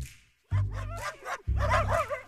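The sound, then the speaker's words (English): A puppy barks twice, each bark a drawn-out, voiced yelp with a wavering pitch contour, separated by a brief pause and standing out clearly against near silence. “Tone it down a notch, puppy, said Fred the dog.”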